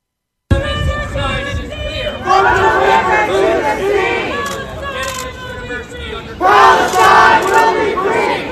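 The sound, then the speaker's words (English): A crowd of protesters shouts loudly on a university campus, drowning out a speaker. The mass of voices stays loud throughout and swells into louder chanting bursts twice. “What you hear there are a group of protesters.”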